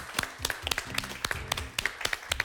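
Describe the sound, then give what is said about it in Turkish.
Applause from a quiz show audience for the weekly final winner, a loose patter of many distinct individual claps, quick and uneven, at a fairly soft level. “Can'ı alkışlayalım.”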